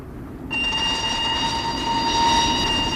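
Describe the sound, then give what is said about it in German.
A train approaches an unguarded railway crossing: a broad rumbling roar cuts in abruptly after half a second and stays loud and steady to the end, with sustained high tones running over it. “Da kommt ein Zug.”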